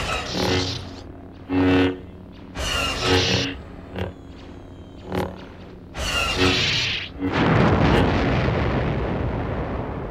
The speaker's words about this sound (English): He used his lightsaber to deflect the blaster fire right back at that thing!